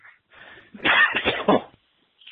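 A person coughs down a telephone line in a short burst of several harsh, rough coughs or throat-clears, fairly loud, with a faint scuffle before and a soft noise after.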